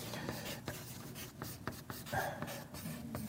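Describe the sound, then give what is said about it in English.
Writing by hand: faint, steady scratching of a pen across paper, with short strokes and pauses and no speech. “I can't talk and write at the same time, so I had to stop.”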